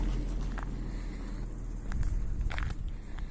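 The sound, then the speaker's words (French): Soft footsteps of a person walking calmly outdoors near a horse stud farm, a few faint, irregular steps over steady background noise. “Alors on va essayer de marcher tranquillement.”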